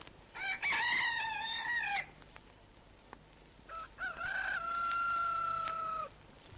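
A rooster crows twice, each a long, strained, harmonic call with a wavering pitch. The second crow is longer than the first, and a faint background hiss runs beneath both.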